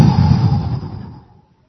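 A group exhales together during a diaphragm breathing exercise: one long, breathy rush of air that starts strong and fades away over about a second and a half, then silence.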